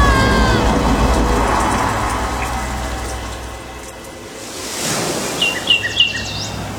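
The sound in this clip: Ocean waves in a children's story, as a bed floats out an open window onto the high seas: a steady wash of surf that fades and then swells again, with a few high chirps near the end.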